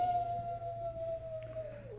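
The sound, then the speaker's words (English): A jackal in the wilderness gives a single faint, drawn-out howl that holds a steady pitch before dropping at the end, over a low background hum. “Jackal howls a warning”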